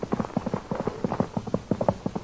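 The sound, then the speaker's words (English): Horse hooves clip-clop in a steady, quick trotting rhythm, many dull hollow knocks following one another evenly at moderate loudness, with a muffled, thin tone and no voices. “Then he rides again. What a horse. Quiet. Here comes the horse.”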